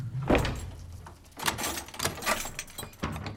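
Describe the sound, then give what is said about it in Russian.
A punishment cell door being shut and locked, a fairly faint heavy thud followed by a few metallic clanks and rattles of the lock. “Запирает дверь карцера.”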